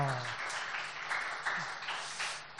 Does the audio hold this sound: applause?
yes